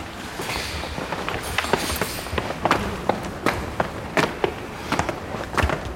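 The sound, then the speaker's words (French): Footsteps climbing stairs, many uneven thuds and scuffs in a loose walking rhythm over a noisy, fairly loud background. “On peut continuer à monter les escaliers.”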